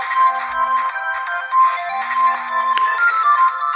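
An incoming call sets off a telephone ringtone, a loud electronic melody of bright beeping tones in a repeating pattern that runs throughout, with no talking.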